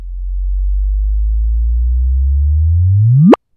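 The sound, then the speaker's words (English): A sonified gravitational-wave chirp of two black holes spiraling together and merging: a loud, pure low tone holds steady, then sweeps sharply upward in pitch and cuts off abruptly. “Here's what it sounds like when two black holes spiral into each other.”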